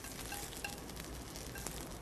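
Green onions fry in a pan while being stirred and kept moving, giving a faint, steady, hissing sizzle with no talk.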